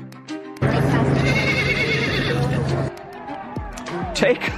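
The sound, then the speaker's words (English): Wild ponies neighing during a pony swim roundup across a channel on Virginia's Eastern Shore, with high whinnies rising out of a loud, dense wash of background noise. “Take a look at the 101st annual pony swim on Virginia's Eastern Shore. Wow, look at that. Thousands of people turned out to watch yesterday's event. About 150 wild horses were rounded up and then guided across the channel.”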